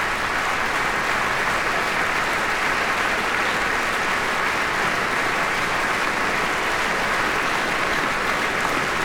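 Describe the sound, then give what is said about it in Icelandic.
Concert audience applauding as the whole band stands to take its ovation: dense, steady clapping that holds at an even level for the full stretch, with no talk on top. “Og hljómsveitin stendur öll á fætur og tekur á móti fagnaðarlátum tónleikagesta.”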